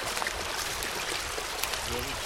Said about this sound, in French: Donc on voit qu'il y a de l'eau ici, hein, ça s'entend.